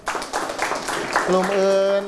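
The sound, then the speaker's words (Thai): Students in a classroom applaud a group of classmates with a short burst of clapping, after which a voice speaks. “เอาปรบมือให้เพื่อน”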